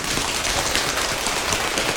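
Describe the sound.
A group of people taps their hands on their legs to imitate rain, making a dense, even, hissing patter that holds steady throughout with no talking.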